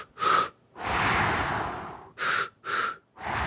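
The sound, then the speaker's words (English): Breathing through the nose in a double-inhale pattern: a short sniff, then a long airy breath, then two quick sniffs and another breath. The breaths are fairly loud and there is no talk. “Dr. Andrew Huberman claims that breaking up one long inhale as a double inhale,”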